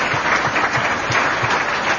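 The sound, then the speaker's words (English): An audience at a political gathering of Democrats, Republicans and independents claps steadily. The applause is dense, even and fairly loud throughout, with no voices standing out. “let's be fair and have a round of applause for the Democrats, too.”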